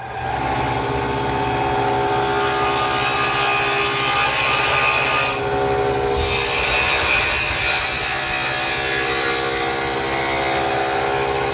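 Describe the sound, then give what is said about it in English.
Rough, continuous scraping of a tool across wood to simulate a gouge, loud and unbroken with a dense grainy texture and a short dip in intensity partway through. “This simulates what's called a gouge, okay?”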